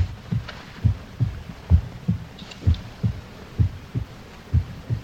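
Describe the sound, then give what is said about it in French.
Beating hearts thump in a steady, regular rhythm, with many low, muffled pulses repeating about twice a second and nothing else heard. “Et c'est leur cœur que j'entends. Leur cœur qui bat. Qui ne cesse de battre.”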